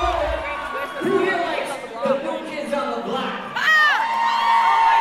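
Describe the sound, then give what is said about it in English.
A person screams excitedly amid a cheering crowd, with whoops and chatter throughout and a loud, high shriek that sweeps up and down near the end. “yes, that's me screaming. It was pure instinct”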